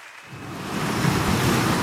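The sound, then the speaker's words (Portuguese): Sea waves surge as a broad, hissing wash of surf, swelling gradually louder and staying steady and unbroken throughout with no voices. “Fechem os olhos. O mar está já ali.”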